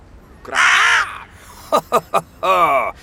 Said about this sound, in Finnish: Kyllä minä tuon äänen tiedän. No niin. Varis.